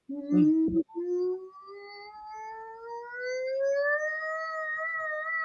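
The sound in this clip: A vocal siren exercise hummed with the mouth closed and the tongue resting on the roof of the mouth: one long, smooth tone that glides slowly upward in pitch and is held, alone, after a brief noise at the start.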